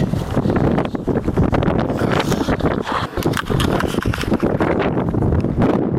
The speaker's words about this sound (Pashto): سیمه ټوله باد او دوړو پر سر اخیستې ده.